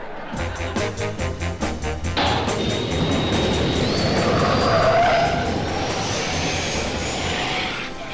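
A car called the Flackmobile drives off with tires squealing: a loud, steady engine roar with a thin whining tone that climbs gradually in pitch, with no voices over it.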